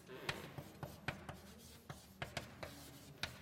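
Handwriting while working out a partial derivative calculation: about a dozen quiet, scratchy pen strokes and taps in an uneven rhythm, separated by brief pauses, with no talk.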